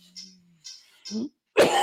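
Throat clearing from someone with phlegm: a few short, raspy bursts, the last one loudest and harshest, with no speech alongside.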